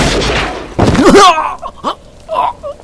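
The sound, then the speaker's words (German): A pistol gunshot: a harsh, loud burst of noise is followed by a few short, whining, pitch-bending tones that fade quickly between them. “Aber auch Robert hat noch einmal abgedrückt. Die Kugel heult dicht an meinem Ohr vorbei und die Pistole bäumt sich wild in meiner Hand auf, als ich erneut den Abzug durchziehe.”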